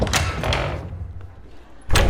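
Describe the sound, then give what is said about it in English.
A big old church door opening, heard as a few dull knocks and scrapes followed by a heavier thump near the end. “Let's go inside through this big old door.”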